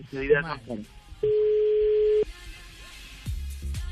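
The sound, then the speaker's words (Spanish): A telephone ringing tone sounds while a call is placed: one steady, even beep lasting about a second. Voices talk before and after it. “Yo estoy llamando ya, ¿eh?”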